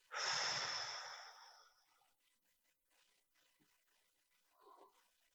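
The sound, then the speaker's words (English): A person takes a deep breath: one loud, airy inhale that fades away over about two seconds, followed by near silence and a faint soft breath near the end. “Take a breath.”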